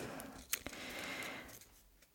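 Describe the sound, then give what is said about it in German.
Rustling paper as question slips are picked out of a basket: faint, crisp crinkling with a few sharper crackles near the start, heard alone without talk. “aus dem Körbchen hier eine Frage auswählen. Ich bin gespannt. Einfach Zufallsprinzip. Raschel, raschel.”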